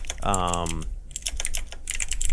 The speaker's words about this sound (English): That keyboard is very distracting. I'm sorry. That is so loud. Yeah, I know. Mechanical keyboards, they're obnoxious.